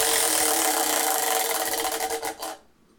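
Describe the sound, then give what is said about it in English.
A brand-new prize wheel spins with a loud, dense, rasping rattle of clicks that slow and spread apart toward the end before stopping abruptly. “So this wheel is still brand new, so it might not spin very well. Also, sound warning because it's kind of loud.”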